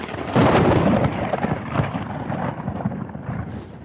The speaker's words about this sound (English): Lightning bolt. What's that? Lightning just zipped me.